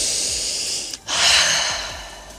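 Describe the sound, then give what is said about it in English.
Deep breath taken in and let out: two long, airy hissing breaths split by a brief pause, the second one louder and fuller before slowly fading, with no talk. “just take a deep breath right now with me”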